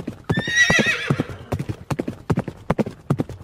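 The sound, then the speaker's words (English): Horse hooves clip-clop steadily as a horse is ridden off, with a whinny sounding over the first hoofbeats before the rhythmic, sharp clopping carries on alone. “They all watched as Zuljanar rode off with their bright shining sun.”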